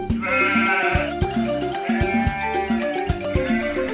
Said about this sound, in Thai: มีเศรษฐีผู้หนึ่ง เลี้ยงแกะไว้หนึ่งตัว